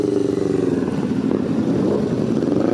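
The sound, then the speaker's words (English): More than 300 bikers on a memorial ride for a fallen rider fill the air with motorcycle engines: a loud, continuous, rumbling drone that holds steady throughout. “let's go into the Ghost Ride. Check this out. For more than 300 bikers, this wasn't just a Sunday drive.”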